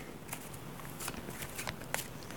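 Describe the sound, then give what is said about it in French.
A deck of cards reshuffled during a card reading, a faint run of light, crisp flicks and rustles at an uneven rhythm over a low, steady hiss. “Je rebrasse les cartes.”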